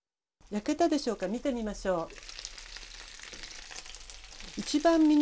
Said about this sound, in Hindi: Fry pan को किसी ढक्कन से ढांप दीजिए ताकि गोश्त अच्छी तरह से गल जाए। धीमी आंच पर मजीद 4 मिनट पकाइए।